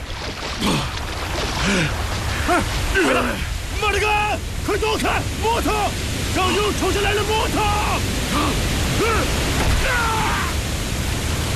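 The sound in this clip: River water rushes as a flood comes down from upstream, making a loud, steady roar that runs throughout beneath urgent shouting voices.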